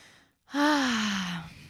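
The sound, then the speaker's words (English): A deep breath is drawn and released as one long, voiced sigh whose tone slowly falls. It follows a moment of silence and is clear, with no talk over it. “actually, let's just take some deep breaths.”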